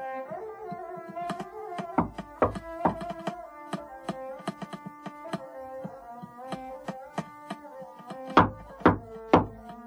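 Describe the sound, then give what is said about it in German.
Knocking on a door: a long series of sharp wooden thuds of uneven loudness, with the heaviest few blows near the end, over sustained steady tones. “es hat geklopft.”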